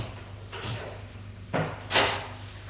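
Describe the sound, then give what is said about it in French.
A door being opened: three short scraping thuds from the wood and latch, with the last one the loudest, over a steady low hum. “Serge a ouvert la porte et fait entrer Cyril.”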